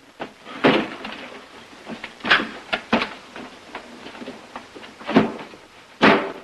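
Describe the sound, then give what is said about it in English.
A door pulled shut in a cramped space with a trunk: a few scattered wooden clunks and rattles of varying strength, fairly quiet, ending in a firmer knock. “He turns and steps in backwards, pulling the door shut and rear-ending the trunk.”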